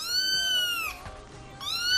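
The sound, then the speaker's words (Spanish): A kitten meowing: two high, drawn-out meows. The first is long and falls slightly in pitch. After a short pause, the second begins near the end. “¿Queréis que os ponga un gatito maullando?”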